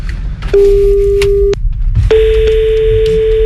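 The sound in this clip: Ringback tone of an outgoing phone call: two long, steady electronic beeps, the second starting after a short gap and running to the end, over a low background rumble.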